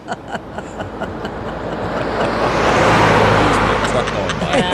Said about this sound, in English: In as Ringo drives to a rehearsal for his all-star band tour.